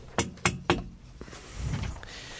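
Three sharp knocks on a studio glass pane, rapped on a colleague's window, evenly spaced and clearly heard in an otherwise quiet room.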